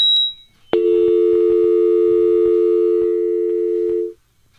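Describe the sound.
A phone line tone sounds after a caller disconnects. A brief high beep comes first, then a single steady low tone holds for about three and a half seconds and cuts off, with no voices.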